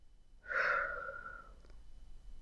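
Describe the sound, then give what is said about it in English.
A single slow breath, drawn out over about a second in a guided breathing exercise, has a soft airy start and fades gradually into quiet. No talk can be heard. “Breathing in, and out.”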